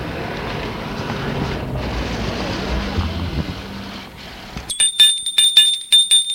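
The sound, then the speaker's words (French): A doorbell rung at the door of a grand townhouse: after a stretch of steady rumbling noise, a bright, high bell rings in a rapid series of short, repeated strikes. “Gilles, tout intimidé, sonne à l'hôtel des Nanteuil.”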